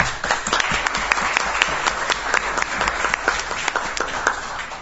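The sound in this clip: Audience applause welcoming the mayor of the municipality of Vareš: many hands clapping in a steady, even stream that lasts throughout.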